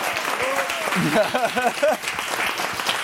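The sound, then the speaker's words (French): Live show audience applauding, a steady bed of clapping with a voice speaking over it in the middle before the applause carries on alone. “On applaudit Valentino Vivace avec ce petit top.”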